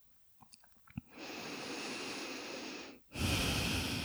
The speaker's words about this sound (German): Atme weiter ganz entspannt ein und aus.